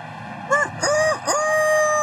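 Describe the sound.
A rooster crows once, a short call broken into a few arching, rising-and-falling segments, with a steady faint hum behind it.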